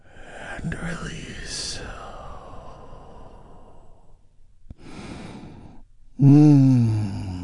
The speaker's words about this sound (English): Let's take a big, deep, healing breath together right now.